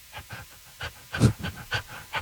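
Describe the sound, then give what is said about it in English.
People imitate a dog panting with many quick, quiet, breathy huffs in an uneven rhythm. “I would like for you guys to do a little panting and barking and puppy talk to each other”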